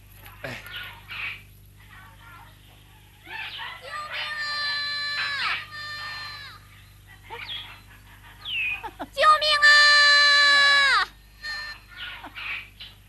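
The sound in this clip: A child cries in the distance in a Journey to the West drama. Two long, high, wailing bursts each end in a falling pitch, with voices heard between them.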